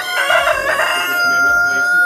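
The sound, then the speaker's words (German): A rooster crows in a bright, harmonic call during a display toward a rival cock. The call ends on a long, steady high note with no other sound over it. “Zuerst wieder mal gegräht und dann mit den Flügeln geschlagen.”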